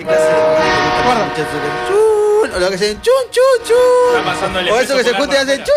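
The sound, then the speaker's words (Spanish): A train horn sound effect announces an approaching locomotive. A loud, sustained, chord-like blast shifts in pitch, then gives way to choppy bursts with voices over them. “Viene la locomotora Escobedo. Directo desde el parque lineal.”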